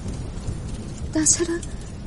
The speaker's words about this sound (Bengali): বাইরেও বৃষ্টি নেমেছে আবার।